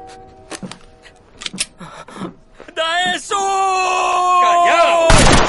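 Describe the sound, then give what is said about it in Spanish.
A single sharp, loud gunshot is fired from behind into a prisoner's head in the Korean war film Operation Chromite (2016). It comes near the end, after speaking voices and a sustained, swelling tonal score. “un soldado desde atrás le dispara en la cabeza.”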